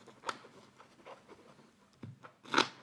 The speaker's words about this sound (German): Jetzt werden die Karten erstmal gemischt.